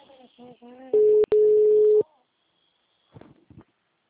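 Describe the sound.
A telephone call tone sounds while a Portuguese speaker dials again: two steady mid-pitched beeps, the second longer than the first, with a short break between them. Brief voice sounds come before and after.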